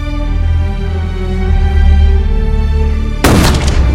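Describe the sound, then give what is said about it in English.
A single rifle gunshot, a sudden loud blast near the end that cuts in over a sustained low tonal drone, with no voices. “A bullet tears through Nick's chest and he topples into the pit.”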